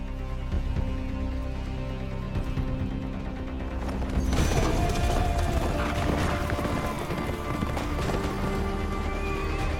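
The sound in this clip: Horses whinny while their hooves clip-clop, and a louder, busier burst of hoofbeats and movement takes over about halfway through.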